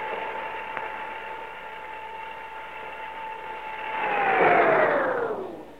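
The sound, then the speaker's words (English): An elevator hums steadily with a constant motor whine, then swells briefly as the whine slides downward in pitch and fades when the car stops between floors after a power cut. “Well, is this my floor already? No. No, it's not. Then why are we stopping? Elevator's stuck. Power's cut off.”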